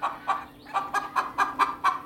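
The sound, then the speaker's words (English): Clucking like a hen's, a rapid, steady series of short, clipped clucks in a bright mid-high register, repeated in an even rhythm with no talking over it. “Cheryl says that she knows she shouldn't cluck right on top of Francis's barn every morning. But she's just so mad that he called her clucking annoying.”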